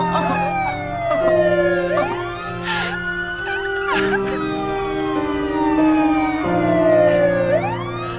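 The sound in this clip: Police sirens wail in a film scene, several overlapping tones sweeping up and down in repeated cycles. The sound is steady and continuous throughout, with no voices.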